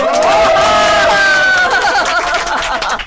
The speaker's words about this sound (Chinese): 你看这么多人给你鼓掌啊